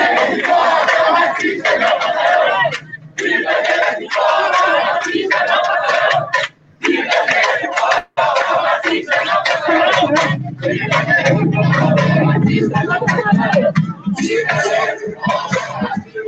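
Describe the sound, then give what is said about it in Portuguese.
A protest crowd reaching São Gonçalo city hall on Feliciano Sodré, chanting and shouting loudly and almost without pause, with only a few brief dips in the roar. “só tirar o áudio aqui dois minutinhos, que é a manifestação, o ato chegou na prefeitura de São Gonçalo, que fica ali na Feliciano Sodré”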